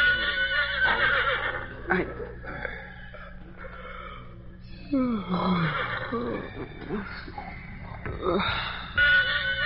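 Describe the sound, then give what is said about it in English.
A pony whinnies in fear, a shaky, breathy cry that slides downward in pitch, set against a low, steady hum. “William Barclay Masterson sensed, rather than heard, his pony's whinny of fear.”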